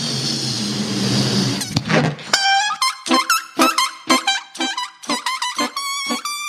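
Radio bumper music: after a noisy opening, a run of short, punchy tonal notes in a brisk, repeating rhythm, loud and clear.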